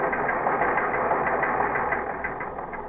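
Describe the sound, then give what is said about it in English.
Teletype machine clattering out a list of police promotions: a dense, rapid mechanical chatter with an underlying hum, continuous and even, easing slightly toward the end. “The teletype machine continued to pound out promotions and went through a list of 23 patrolmen made sergeants.”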